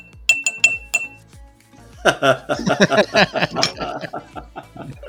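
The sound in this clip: Three sharp, bright clinks of a small glass ring out in quick succession. After a short pause, people talk and chuckle.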